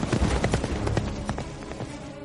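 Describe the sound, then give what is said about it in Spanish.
A horse gallops away in a medieval scene as flames consume a forge: quick, rhythmic thudding hoofbeats, strong at first and easing slightly toward the end. “Monta en un caballo. Se aleja al galope mientras las llamas consumen la fragua.”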